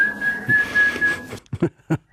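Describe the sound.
A sustained, level-pitched whistle blown to make a robotic flower open on a lawn holds steady for about a second and a half, then gives way to a few short, breathy bursts.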